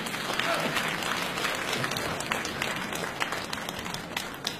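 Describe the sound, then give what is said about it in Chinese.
Applause from an audience at a comedy sketch competition show, welcoming performers to the stage. Continuous clapping with sharp individual claps standing out, holding strong and easing slightly toward the end. “掌声请出江苏盐城文化馆的夏文兰、倪明。”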